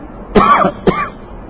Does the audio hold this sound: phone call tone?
no